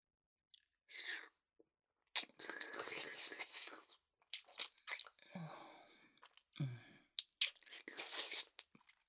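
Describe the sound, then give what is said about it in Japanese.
Wet licking and sucking mouth sounds come in soft, irregular bursts of smacking and slurping, broken by brief silences. “それじゃあ今度は吸うだけじゃなくて舐めてみようか。”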